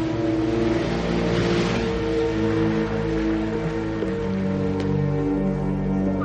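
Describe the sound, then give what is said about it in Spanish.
A police car drives away from the doors of a county hospital in a 1993 crime thriller. A loud, steady engine hum with a droning tone holds throughout, with no voices. “Kimball está ante las puertas del hospital del condado, en cuya puerta hay un coche de policía. Este se marcha y Kimball vigilante cruza la calle.”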